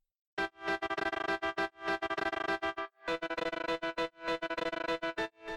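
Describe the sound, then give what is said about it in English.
Distorted piano keys play a simple programmed part through a Tremolator effect, with sustained chords chopped into rapid rhythmic pulses and a brief gap partway through. “Distorted piano with a Tremolator and a bunch of goodness.”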